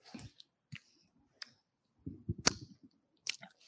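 Chewing banana pudding with cookies: faint, moist mouth clicks and soft squelches come in a few short bursts, with a denser cluster of chewing near the middle.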